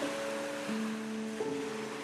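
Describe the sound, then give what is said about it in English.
Ocean waves lap at the shore in a soft, steady wash of surf, with gentle sustained musical tones held underneath. “Place your thought shell at the water's edge and watch the waves lap against it, wash over it,”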